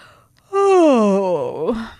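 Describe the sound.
A voice performs a drawn-out yawn for a child character in a bedtime story. It is a single loud, voiced sound whose pitch slides steadily downward, with no other talk around it.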